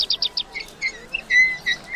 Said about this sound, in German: Die Vögel zwitschern in der Sonne,